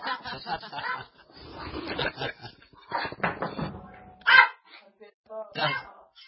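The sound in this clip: A dog barks and whimpers in an irregular run of short yelps and whining bursts with brief pauses between them, mixed with snickering, laugh-like sounds.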